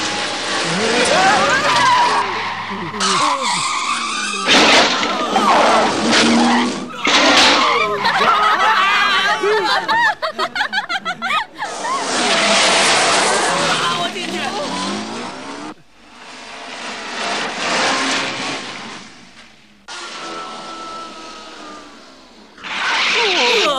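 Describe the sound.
A car being driven wildly, with engine roar and loud tire squeals in repeated bursts, while people talk over it.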